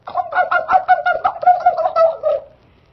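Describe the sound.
A dove coos in a rapid, rhythmic series of low, hoarse pulses that run steadily and fairly loud before stopping abruptly, leaving a short silence.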